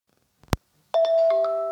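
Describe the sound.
A phone rings with an incoming call: a sharp click comes first, then a steady electronic ringtone with stepped, chime-like notes that sounds alone and runs to the end.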